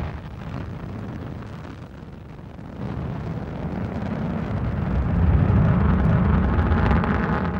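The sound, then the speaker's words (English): A Delta rocket carrying Mars Pathfinder lifts off with a deep, continuous roaring rumble that swells louder through the second half and holds to the end. “main engine start, 1, 0, and liftoff of the Delta rocket with Mars Pathfinder. And the vehicle has cleared the tower.”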